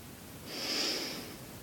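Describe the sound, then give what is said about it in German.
A single deep inhale during a guided standing breathing exercise, a soft airy rush that swells slowly and fades away, quiet and alone. “Konzentriere dich auf deinen Atem. Einatmen.”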